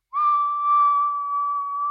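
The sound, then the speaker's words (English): A person whistles one clear, sustained, steady tone, imitating the tones someone was said to whistle, alone and without talk. “not like a song, but like he was whistling tones where he would just go”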